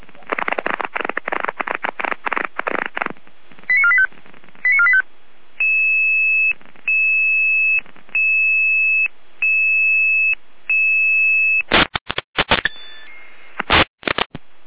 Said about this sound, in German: Leitstelle Gare mit Alarmierung.